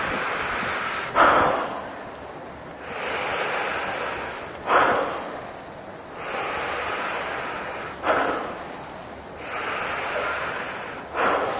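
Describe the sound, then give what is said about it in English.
Breathing exercise with released exhales: four forceful breaths let out in a slow, regular rhythm. Each one is a rushing burst of air that tapers into a long, softer airy hiss before the next. “So we're practicing that one starting skill, the ability to let go of the exhale, set the exhale free, dump the exhale out, release the exhale.”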